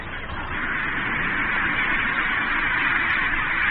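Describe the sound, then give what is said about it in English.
Penguins calling in the largest penguin colony in the world, a dense, unbroken chorus of countless overlapping squawks and brays that holds steady and loud throughout. “This is the largest penguin colony in the world.”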